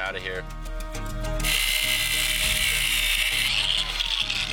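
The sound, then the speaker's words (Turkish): A power tool cuts out a rusty nail: a few light clicks give way to a loud, steady, high buzzing whine that runs continuously to the end. “Bu bayağı paslı bir çivi. Yeni bir delik açtım ve içine yeni bir çivi koyuyorum. Bunu kesip çıkaracağım.”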